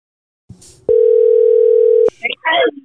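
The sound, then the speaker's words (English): A telephone call's ringback tone: a single steady mid-pitched tone lasting about a second, cut off abruptly, with voices speaking right after it. “let me try to call this other guy back real quick. We gotta call more people. Let's just call everybody.”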